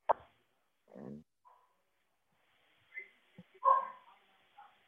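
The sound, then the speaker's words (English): Dogs barking faintly, a few short, scattered barks and yips separated by near-silence. “Is that your wife's dogs?”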